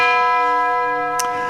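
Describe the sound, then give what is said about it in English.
A ringing bell tone, used as a sound effect, sustains from the start and slowly fades, with a brief faint click near the end. “let's have a bell anyway”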